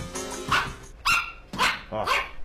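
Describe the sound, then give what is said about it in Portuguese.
A pug dog barks in several short, sharp yaps spaced about half a second apart. The barks are loud and clear, with nothing else heard around them. “Esse cachorro. Esse é o Pug.”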